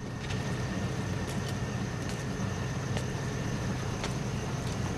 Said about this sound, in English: The engine is running and the cab windows are misted up.